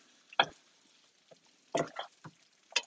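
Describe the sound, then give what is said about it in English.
Light scrapes and taps of a spatula edge in a skillet while eggs fry. A few faint, brief scratchy touches come at irregular intervals over a quiet background. “I just lightly use the edge of the spatula to kind of identify where the eggs are in the skillet.”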